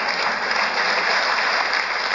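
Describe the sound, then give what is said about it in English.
Studio audience applauding at a comedy panel game, a dense, even wash of clapping that holds at steady loudness throughout with no voices. “The audience are applauding because they enjoyed the challenge”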